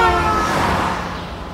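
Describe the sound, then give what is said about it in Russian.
A tram pulls into a busy city transit stop while cars rush past on the road: a steady, loud rumble of rail and traffic noise with a high whining tone that fades over the first second. “На остановке городского транспорта много людей. Подходит трамвай. По дороге проносятся автомобили.”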